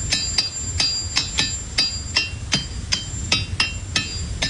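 Ringing rocks struck in a quick, fairly steady series of many sharp clinks, each hit carrying a bright, high metallic ring that lingers briefly before the next strike.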